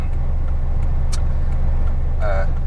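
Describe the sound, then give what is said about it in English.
Cars on a road make a steady, loud, low traffic rumble that runs through the whole clip, with no single pass-by standing out. “I'm just checking out the cars coming up around here. They just don't bloody well stop.”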